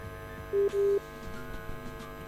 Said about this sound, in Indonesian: Aduh, sayang sekali keputus nih kayaknya nih.